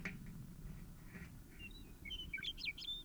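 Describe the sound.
A bird chirps in a few short, high, quick notes clustered toward the end, faint over a low steady background rumble.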